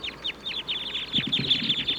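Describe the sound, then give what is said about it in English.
Wild birds call in the treetops with many quick, high, repeated chirps at a steady pace, joined in the second half by softer, lower, rougher sounds. “the wild birds in the treetops are calling now.”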